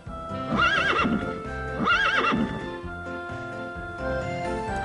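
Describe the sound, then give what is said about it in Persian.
A horse neighs twice in close succession. Each whinny is loud, high and wavering, and the two are separated by a short pause, with a low rumble running underneath. “اسب. سین مثل اسب.”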